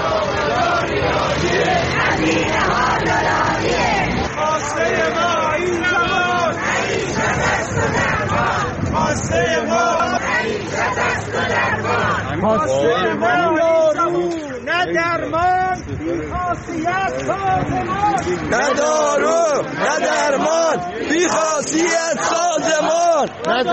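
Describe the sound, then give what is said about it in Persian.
Protesters chant slogans at a rally in Mashhad, a loud crowd shouting together in rhythmic, repeated phrases that carry on without pause, with a dense hubbub of many voices. “و تجمع کنندگان در مشهد شعار دادند”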